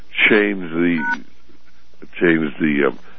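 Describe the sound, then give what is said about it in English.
Electronic telephone tones signal an incoming caller on a phone-in line. They come as two similar bursts of clear, steady tones separated by a short silence. “And do I hear the beep? Do we have a guest call?”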